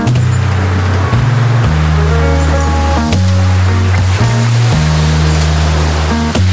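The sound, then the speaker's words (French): Sea waves washing in a continuous broad hiss beneath a loud music bed of held low notes. “Ça fait toujours du bien d'écouter la mer.”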